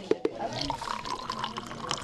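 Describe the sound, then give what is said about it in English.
Liquid medication pours into a container during a pharmacy technician training exercise. A continuous trickling runs throughout, opened by two bright drips or plinks. “The dosage form is liquid, right? So you pour that in there.”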